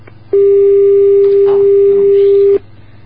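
A telephone busy tone after a call is cut off: one loud, steady, mid-pitched electronic tone holding for about two seconds before stopping abruptly, with quiet hiss before and after.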